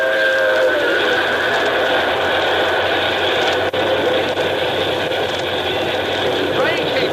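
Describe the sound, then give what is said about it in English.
Steam locomotive of the 4-6-4 Hudson type hauling a freight train, a loud, steady rumble with broad hiss and whistle-like tones, continuous across about seven seconds. “Yeah, it's a 464 type locomotive. Looks like a Hudson.”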